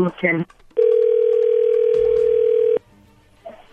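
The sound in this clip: A ringback tone on an outgoing telephone call: one loud, steady electronic tone held for about two seconds. Brief, quieter sounds come just before and after it.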